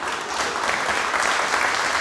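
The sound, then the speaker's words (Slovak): Applause from an audience: dense, steady clapping that stays loud and continuous for the whole clip. “Potlesk.”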